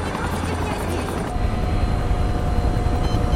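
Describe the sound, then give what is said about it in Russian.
A helicopter on a landing pad gives off a steady low rotor rumble under a broad roar, growing slightly louder partway through. “Вертолет на площадке.”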